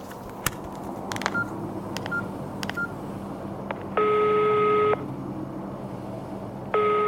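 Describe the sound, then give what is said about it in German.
A telephone being used to dial a call: faint key clicks with three short beeps, then a long, steady tone that stops and starts again near the end. “Apropos vergessen, da fällt mir ein, ich wollte doch Hanna anrufen. Das mache ich am besten mal gleich.”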